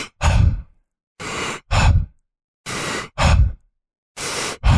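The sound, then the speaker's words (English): Quick, deep breathing in the style of the Wim Hof method: big, forceful inhales alternate with relaxed, airy exhales, several loud breaths in a steady rhythm separated by short silences. “breathing a little bit quicker and focusing on really big inhales, and then just relaxing and letting all that air out on the exhale. So it would sound something like this.”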